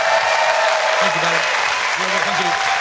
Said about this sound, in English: Ladies and gentlemen, please give a massive round of applause for Fern Brady.